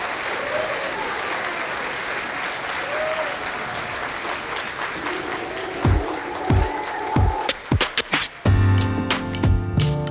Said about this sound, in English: So please welcome to the stage, Mohanad El-Sheikhi.